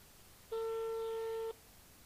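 A telephone busy signal heard while placing a call: a single steady electronic tone about one second long, clear and alone against a faint hiss.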